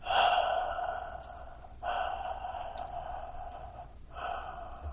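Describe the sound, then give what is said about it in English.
Breathing through a deliberately narrowed throat during breath meditation: three long, airy, hissing breaths with short pauses between them, steady and fairly soft. “to be aware of your breath going in and out, you can close your throat, okay, and watch, okay?”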